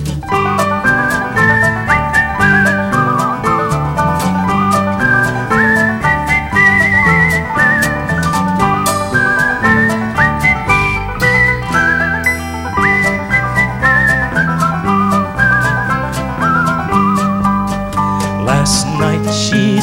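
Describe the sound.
A bright whistled melody weaves continuously through a folk song, carried loud over steady musical accompaniment.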